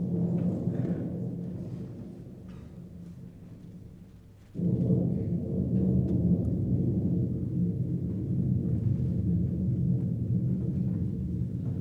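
Thunder sound effect in a stage production of Molière's Dom Juan: a low continuous rumble dies away, then surges abruptly into a louder sustained roll that carries on to the end.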